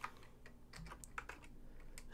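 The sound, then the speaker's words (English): Typing on a computer keyboard: many quiet, irregular key clicks tapping along in uneven bursts, faint and alone without any talk. “I can't type this morning, apparently.”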